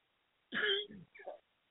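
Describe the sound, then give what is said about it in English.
Brief, quiet cough with a throat-clearing quality, made of a few short, rough bursts with no talk around it. “Oh, I had to cough.”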